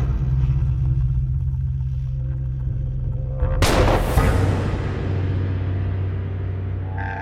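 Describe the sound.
A single gunshot in a duel at the edge of a plateau: a loud, sharp crack with a long, fading tail, over a steady low rumble that continues before and after.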